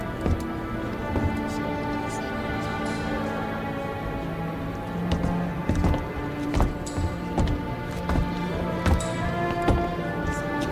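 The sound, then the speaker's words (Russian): Footsteps of a man walking under gendarme escort in a radio drama. Irregular soft thuds fall over a sustained tonal background that runs throughout. “В сопровождении жандармов идет Борис.”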